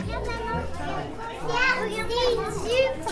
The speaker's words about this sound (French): Il y avait plein d'enfants partout ce dimanche, premier visiteur privilégié de la Philharmonie des enfants qui ouvre demain à Paris.